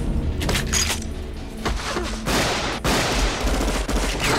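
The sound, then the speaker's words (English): Loud gunfire in a violent film shootout, where a police officer takes a shotgun blast to the stomach. A dense run of sharp blasts and crashes fills the whole clip with little pause between them. “And the cop pushes Nat down and takes a shotgun blast to the stomach.”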